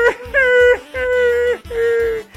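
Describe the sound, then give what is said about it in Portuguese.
A baby cries in four loud, drawn-out wails, the first brief and the rest sustained, each held at a fairly steady high pitch and separated by short breaths. “Ala, meu Deus, tá chorando, é?”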